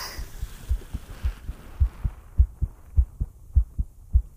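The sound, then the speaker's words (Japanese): Heartbeat heard through a stethoscope: a steady, regular series of many low, muffled thumps with a soft background hum and no voices. “ハデスの心臓の音聞こえますか？”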